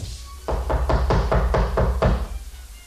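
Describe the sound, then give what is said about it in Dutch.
Knuckles knocking on the door of an apartment, a quick, even series of solid knocks at a steady rhythm, loud and clear with no talking. “Klopt nog eens”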